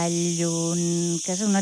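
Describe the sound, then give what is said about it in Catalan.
Cicadas sing in summer beneath an olive tree on the Puig de Santa Magdalena in Inca, a dense, steady high buzz that runs unbroken through the whole short stretch. “davall una olivera i sobretot davall d'aquest so d'estiu de les cigales que canten”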